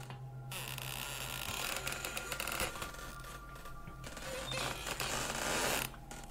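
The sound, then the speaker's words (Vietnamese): Two wooden doors swing back and forth and creak, giving a steady rasping, grinding creak that runs almost without a break. No voices are heard. “Hai cánh cửa còn đu đưa qua lại, tạo ra những âm thanh cọt kẹt ghê người.”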